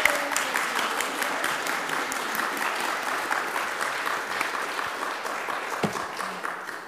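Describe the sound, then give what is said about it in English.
A church audience applauds its new members with dense, even clapping that holds at a steady level throughout and ends with a few slightly louder claps. “Please give a big hand.”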